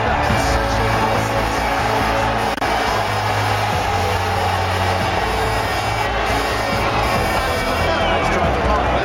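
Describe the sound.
A crowd at Monza roars as Fernando Alonso takes the Ferrari podium, his fourth in a row there: a loud, dense, unbroken wall of cheering that fills the whole stretch.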